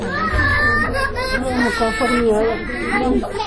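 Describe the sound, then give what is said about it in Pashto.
Children crying and screaming in mourning at a family home the day after a deadly attack: loud, wavering, high wails running continuously, with several voices overlapping. “دا راپور یې برابر کړی چې د خدای بخلي د ماشومانو په چیغو پیلېږي”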